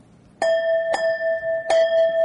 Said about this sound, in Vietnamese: vì nếu mà một trong một buổi lễ đó là chuông của mình là hai tiếng nhặt, một tiếng rời, mà từng từ vậy đó. Còn nếu mình thỉnh dài,